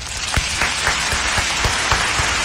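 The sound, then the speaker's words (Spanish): Applause rings out in a dense, steady wash of clapping, with regular sharper claps poking through at an even pace for the full stretch, and no voices over it. “¡Bravo! ¡Bravo, bravo, bravo! Querida amiga, este aplauso es para usted.”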